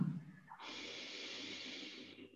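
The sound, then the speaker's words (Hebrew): A long, continuous exhale and an inhale, heard as a soft, steady, airy hiss of breath that holds at an even level. The breathing is faint, with no voices over it. “נשיפה ארוכה והמשכית. שאיפה.”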